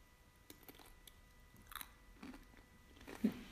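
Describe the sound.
Someone eats crunchy chips with faint, scattered bites and crisp crunches, quiet and alone without talk.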